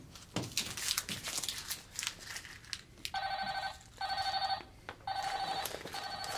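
A phone ringtone sounds in three bursts of a bright, trilling electronic tone, preceded by rustling and crinkling handling noises.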